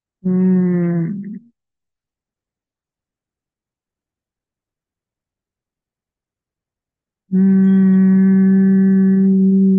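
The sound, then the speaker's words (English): A voice hums a sung 'ng' tone for crown chakra meditation. A short held hum comes first, then silence, then a long steady hum at the same low pitch that sustains to the end. “The sound for this chakra is an NG sound. Like this.”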